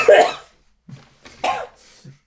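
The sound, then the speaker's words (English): Coughing after choking on an almond: one loud, harsh cough followed by a few weaker, spaced hacks and throat-clearing sounds, each separated by short silences. “I've been struck down by the gods. I'm choking on an almond now.”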